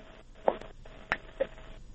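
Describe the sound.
A telephone call connecting on a radio call-in show: three short, faint electronic tone beeps in an irregular pattern over a low line hiss.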